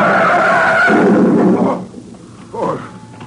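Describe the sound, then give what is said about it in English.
Car tires screech in a long, loud skid for about a second and a half, then the squeal drops away to a quieter rumble with a short swell near the end. “Look out! Look at the way that maniac's driving!”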